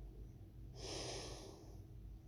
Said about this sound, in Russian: Сделай глубокий вдох